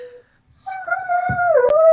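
A female dog whimpers and howls: a short thin whine, a brief pause, then a sustained, wavering high-pitched howl that swells louder and dips near the end, with a sharp click in the middle.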